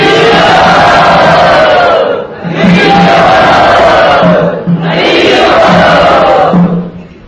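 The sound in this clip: A crowd cheers and shouts in welcome for a speaker at a devotional gathering of Lord Chaitanya Mahaprabhu's movement. Three loud, sustained collective roars rise in turn, each separated by a brief dip.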